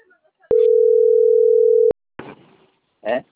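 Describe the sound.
A steady, single-pitch telephone tone plays while a call is being dialed. It holds unbroken for about a second and a half, and then voices begin talking.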